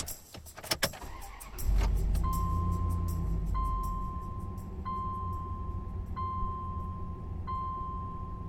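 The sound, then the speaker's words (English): A small green truck starts up with a few sharp clicks and a jangle, then settles into a low engine rumble while an electronic chime repeats steadily over it. “This is yet another vehicle. This is the affectionately known as Little Green Truck with a Big Heart.”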